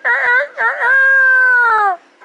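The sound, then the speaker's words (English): A young rooster, still a baby, giving high, harmonic squawking calls: a few short wavering cries, then one longer, steady call that sags slightly in pitch at its end, loud and alone. “In 2 weeks, this bird is going to be cockfighting down the street.”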